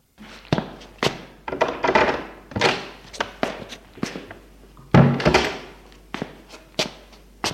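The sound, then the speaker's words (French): Knocks and clunks as a bedroom wardrobe door is opened to take out a box of savings, many sharp thuds and rattles following one another in quick succession, with no one talking. “Et ouvre son armoire pour prendre le coffre en argent où se trouvent ses économies.”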